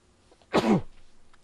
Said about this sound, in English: Bless you. I'm sneezing.